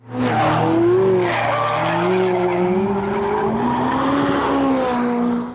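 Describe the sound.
Tire squeal from a McLaren Mercedes 570 GT sports car skidding: a loud, continuous tonal screech with wavering pitch over a low engine drone, lasting about five seconds with no voices.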